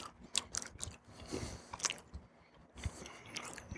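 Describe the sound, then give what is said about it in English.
Biting into a strawberry Kit Kat wafer bar: a few crisp crunches mixed with chewing, faint throughout. “Take a bite of the Kit Kat.”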